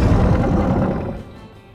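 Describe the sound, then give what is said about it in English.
A deep, loud roar of a monster, a tall fur-covered creature like Bigfoot, rumbling low and heavy before fading steadily over its second half. “What was that? That's the roar of the Anathema.”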